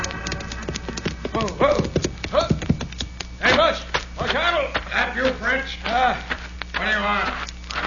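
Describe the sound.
Horses' hooves clop steadily as riders come into town, a quick irregular patter of knocks that runs throughout while people talk over it.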